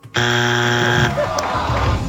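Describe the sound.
A game-show buzzer during a TV trivia quiz sounds one harsh, steady tone lasting about a second, then cuts off as voices begin talking.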